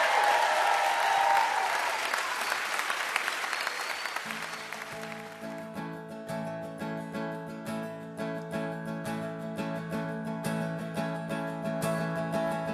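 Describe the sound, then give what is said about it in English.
An audience applauds to welcome a band. Dense clapping fades over about four seconds as the band begins to play, and rhythmic strummed instrumental music continues alone. “Please welcome”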